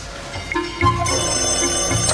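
A telephone rings on an evening as someone works at a desk: steady, bright ringing tones that grow fuller partway through and keep sounding, with no one speaking.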